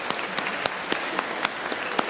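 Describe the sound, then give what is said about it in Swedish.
Applause from a church audience for confirmands and their leaders: a fairly quiet, steady patter of many hands, with individual sharper claps popping out at irregular moments across about two seconds. “Så ger vi dem en applåd, ja precis.”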